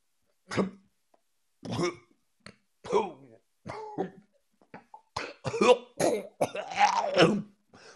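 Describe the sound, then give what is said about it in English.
Coughing and gagging from one person, a long run of harsh, separate bursts with short silences between, growing denser toward the end into a longer, strained retching cough. “Excuse me, I feel a lot better now. That was because I thought of Matt Canada. I gag every time I think of him.”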